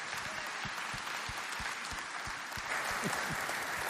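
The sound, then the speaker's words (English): An audience claps to welcome a guest speaker at a church service. The steady, dense applause keeps an even loudness from start to finish. “If you would this morning, put your hands together and welcome my good friend, Jim King.”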